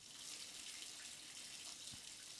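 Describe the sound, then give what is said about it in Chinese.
Shower running in a bathroom makes a faint, steady hiss of falling water that holds evenly throughout, with no voices. “你问什么声音啊？是我同事在浴室洗澡啦。”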